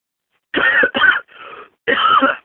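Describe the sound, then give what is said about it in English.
Coughing from a person who has been ill, four harsh hacking bursts in quick succession, the third one softer and breathier than the rest. “So sorry if I hacked up there.”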